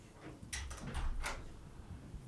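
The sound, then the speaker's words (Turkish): A window being closed: faint, soft scraping and sliding bursts in a short run, low against steady background hiss. “Kapat o pencereyi ya.”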